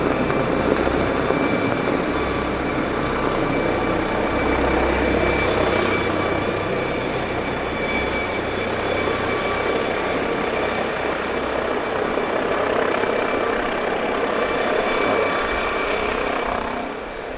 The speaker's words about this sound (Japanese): 着陸する瞬間にちょっと向きを変えてからストンとね降りるのね。